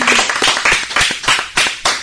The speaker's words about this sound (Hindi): बहुत बढ़िया, जोरदार तालियां।